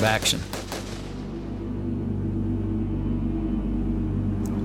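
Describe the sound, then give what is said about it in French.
Rifle gunshots as three Marines fire: a few sharp cracks in the first second, followed by a steady low rumbling drone. “Trois Marines ont tiré et l'ont abattu.”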